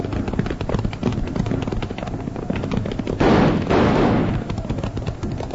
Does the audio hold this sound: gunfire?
yes